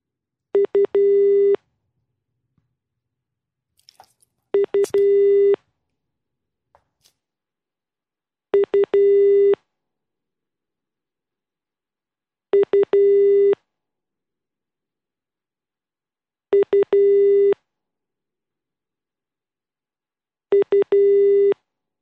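Telephone busy signal on a call that goes unanswered: six short bursts of a pulsed, steady mid-pitched tone, roughly four seconds apart, with silence between them.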